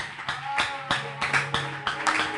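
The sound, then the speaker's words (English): Clapping for the church welding team, heard as a series of sharp, evenly spaced claps over a low steady hum. “Our brethren in that department of welding, don't you think that we went out to get labor? And I request to clap for them.”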